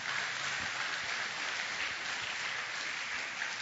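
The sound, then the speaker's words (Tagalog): An audience applauding during a church sermon: a continuous, even wash of many hands clapping that holds at a steady level throughout, with no talk over it. “Pwede bang palakpakan natin ang Panginoon?”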